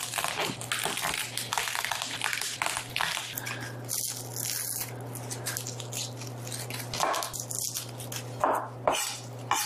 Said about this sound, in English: All right, I'm going to prep these garlic cloves. I think I'll do 2.5 bulbs, and we'll taste it and see how that goes of garlic into the salsa. So I'll prep them, and then I'll crush them in.